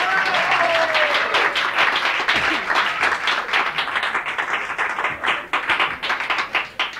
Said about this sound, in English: See, ordinarily I would walk all the way downstairs, go all the way to the bathroom, and then see if everyone was still clapping